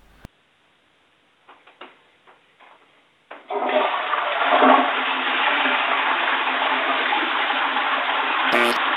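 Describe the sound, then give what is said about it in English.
Toilet flushing after baking soda was added to the bowl: a few faint clicks, then a loud, sustained rush of swirling water that continues to the end, with a brief tick near the close. “Have you added the baking soda to the toilet bowl? Yes. And can you flush it for me and let me know what happens?”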